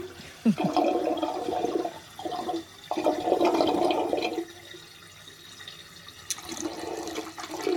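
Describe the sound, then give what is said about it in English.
Rushing, gurgling water pours out as the Chesterfield Canal is drained in 1978, a fairly soft, steady flow that swells and eases with a few sharper splashy surges. “This is a recording of what? What's the name of the canal? It's the Chesterfield Canal. This is it being drained in 1978.”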